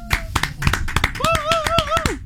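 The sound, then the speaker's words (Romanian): Applause from a small team, many sharp, separate hand claps in a quick, uneven run, with a voice whooping over the second half. “Astea sunt aplauzele sincere. Am pornit microfoanele doar ca să auziți reacțiile echipei de la Zoo în fața artei.”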